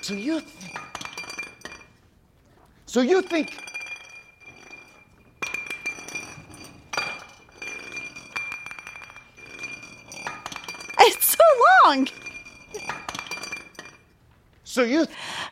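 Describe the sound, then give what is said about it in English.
A glass bottle rolling across the floor for a long stretch, clinking and rattling in uneven bursts with quiet gaps, while voices break in now and then. “This bottle rolls for 19 seconds. It made me laugh every time. I want to hear it.”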